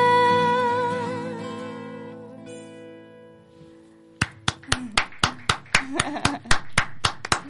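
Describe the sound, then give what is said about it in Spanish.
A studio audience behind glass applauds as a song's sustained tones fade out, breaking into many sharp, evenly spaced hand claps that form a steady, brisk rhythm. “Del otro lado de, o sea, de la pecera, está ovacionándolos.”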